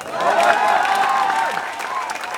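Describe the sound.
Applause from an audience at an open-mic event, steady dense clapping that holds for the whole stretch, with a faint voice rising above it partway through.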